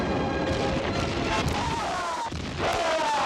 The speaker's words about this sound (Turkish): Bütün toplar ateş! Ateş! Ateş!